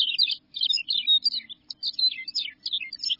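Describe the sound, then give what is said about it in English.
A Macoun's longspur sings on grassland: high, rapid, sweet twittering and warbling phrases in a few bursts separated by short pauses, over a faint low hum. “Their sweet songs fill the warm air. Songs such as those of Macoun's longspur,”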